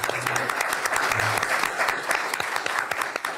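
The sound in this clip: An audience applauding to welcome a speaker to the stage at a Cato Institute event, dense and steady clapping that holds at an even level throughout.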